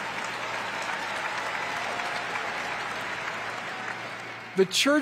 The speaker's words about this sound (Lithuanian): Taip, aplodismentai skaistybei.